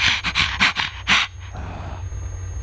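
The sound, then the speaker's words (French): A person imitates a dog panting, tongue hanging out, adding a hoarse throat rasp to each breath: a quick run of harsh, breathy huffs that then trails off into quiet. “respirez comme un chien, la langue pendante avec un bruit de gorge rauque à chaque bouffée d'air.”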